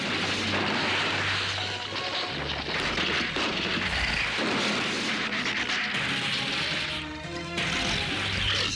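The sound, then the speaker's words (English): Explosions as monstrous beasts are blown apart while defenders shoot down from a town's ramparts. Dense, loud booming and crashing bursts with gunfire-like cracks roll on almost without pause throughout. “Several more beasts are blown apart, but more follow, destroying the outer buildings of the town.”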